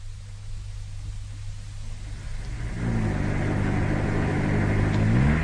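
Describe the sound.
A car drives along a high street toward a garage: a steady engine and road hum that grows louder about halfway through as the engine note climbs.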